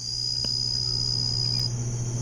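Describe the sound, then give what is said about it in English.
Jungle insects in Borneo give a continuous high-pitched buzzing chorus, steady and unbroken over a low hum, with no voices. “just a little bit of atmospheric insects from the jungle in Borneo.”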